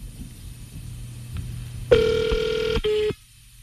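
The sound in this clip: A telephone call is being dialed, heard as a steady electronic tone that sounds over a low background hum, then breaks briefly and returns as a shorter tone before cutting off.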